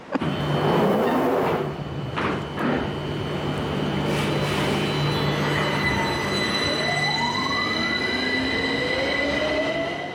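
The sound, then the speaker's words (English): Squealing wheels and a low rumble from a London Underground Piccadilly line train bound for Covent Garden, with steady loud running noise and several drawn-out squeals gliding upward in pitch over the rumble. “It's an underground train on the Piccadilly on its way to Covent Garden.”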